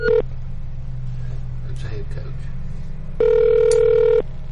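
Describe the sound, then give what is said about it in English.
Telephone tones from a call to an unknown local number: a brief burst at the start, then a steady ring tone of about a second later on, both over a constant low hum. “I don't even know what number that was. I just dialed some number.”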